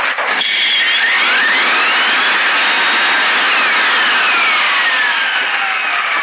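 A Folletto vacuum cleaner motor runs after a repair, a loud, continuous roaring whine with thin whistling tones sliding up and down throughout, alone with no talk.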